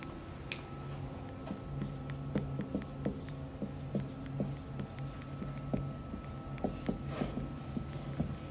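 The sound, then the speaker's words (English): Handwriting at a leadership seminar workshop as someone writes something up: faint, scratchy strokes in many short bursts over a steady low hum. “I'll write it up here.”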